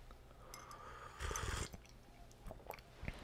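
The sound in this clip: Ginger tea being sipped, very quiet, with one fuller slurping sip in the middle and faint small clicks and taps around it.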